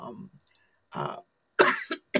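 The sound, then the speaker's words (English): A person coughing: a few harsh, loud bursts separated by short pauses, with no talk over them. “I have a cough here”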